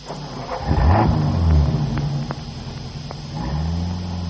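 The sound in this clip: Engine rumble of a taxi car driving off, a low steady drone that swells and revs around the start, eases, then builds again toward the end over a constant hum.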